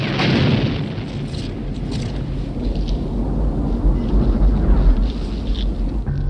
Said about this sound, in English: He exploded.